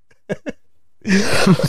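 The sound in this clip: Two short coughs from a person with a weeks-long persistent cough, quick and close together, followed after a pause by a longer, louder, rough and noisy stretch.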